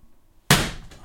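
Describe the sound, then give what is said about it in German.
A single sharp hand slap as someone swats a mosquito: one loud, sudden crack with a short fading tail. It stands alone, with no talk around it. “So, es hat einmal geknallt, das war eine Mücke, Entschuldigung.”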